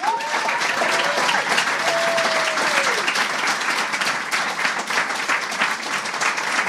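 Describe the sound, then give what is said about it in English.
An audience gives a round of applause for the Conan writers, a dense and sustained wash of many hands clapping at a steady loud level, with a couple of whoops rising over it early on. “Please give a round of applause to the Conan Writers.”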